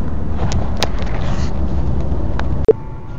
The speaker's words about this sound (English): I'm driving through Oklahoma City. Yes, still driving.